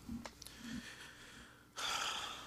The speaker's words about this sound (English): Deep breath.